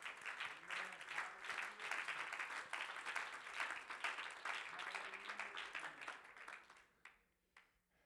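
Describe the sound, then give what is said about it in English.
A church audience claps its hands in worship, with sustained, lively clapping and voices underneath, then it thins out near the end to a few last separate claps. “Clap your hands to the Lord.”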